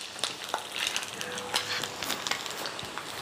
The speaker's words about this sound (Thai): คุณผู้ชมจะรู้เลยค่ะว่าหมึกที่ทอดเนี่ยได้แล้วเพราะว่ามันจะส่งกลิ่นหอม